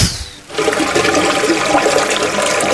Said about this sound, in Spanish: ¿Qué has hecho, estúpida niña? ¡Me has tirado a mí el agua!